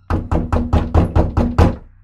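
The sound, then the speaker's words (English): Eight loud, evenly spaced knocks hit a front door at midnight. Each is a dull, heavy thud in a steady rhythm, and no voices are heard. “Around midnight that night, someone began to knock on our door.”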